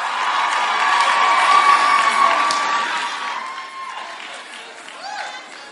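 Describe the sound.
A church audience applauds and cheers as a speaker comes up to share her testimony: loud clapping mixed with shouts and whoops, peaking early and then tapering off.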